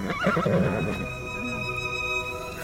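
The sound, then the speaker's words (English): A horse gives one short, quavering whinny near the start, over a steady tonal hum that continues after the neigh fades. “Don't you dare shoot a horse!”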